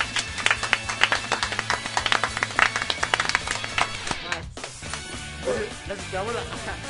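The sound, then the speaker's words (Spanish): Hand clapping on a small radio show, a few people giving quick, sharp claps for about four seconds before talking takes over. “Y sigue subiendo esa madre, un aplauso a todos.”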